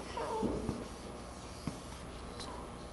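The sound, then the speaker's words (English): A pen or pencil scratches on paper while drawing a hand, in faint, irregular strokes with a few small taps. “Okay, let's draw a hand stretched out here.”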